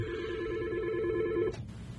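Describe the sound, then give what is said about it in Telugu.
A telephone rings with an incoming caller's call: one steady, continuous electronic ring tone that cuts off abruptly about three quarters of the way through, leaving only a low, quiet hum. “మనకు ఒక శ్రోత నుంచి call వస్తుందండి, ఒక్క నిమిషం.”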